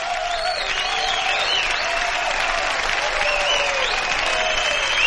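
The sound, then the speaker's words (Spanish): A theatre audience applauds as the curtain falls, a thick, continuous wash of clapping that stays loud and even throughout. Scattered cheers and voices from the crowd rise above it. “El telón del teatro baja y el público se levanta para aplaudir.”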